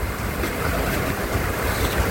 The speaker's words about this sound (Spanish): Es una copiosa caída de agua acá en el exterior. Lluvia directamente.